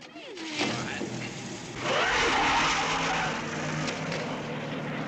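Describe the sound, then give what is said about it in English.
A Cadillac car drives off, its engine noise swelling to a loud, sustained roar about halfway through after a quieter start, with a rough tire-scrubbing edge to the sound. “They all pile into Jean's Cadillac.”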